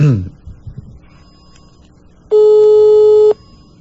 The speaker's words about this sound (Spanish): Estamos ahí en espera de que pueda responder a la llamada telefónica.